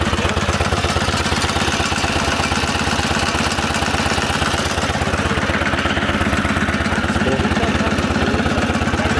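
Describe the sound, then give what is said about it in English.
An all-original 1947 Whizzer kit motor made for Schwinn bicycles runs steadily, a loud, rapid, even chugging and knocking of a small engine that holds the same pace throughout. “It's the sound of a Whizzer motor.”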